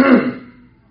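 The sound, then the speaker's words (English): A voice imitates a priest clearing his throat, producing one short, gruff burst that starts strong and fades away within a second, alone. “And the priest cleared his throat again.”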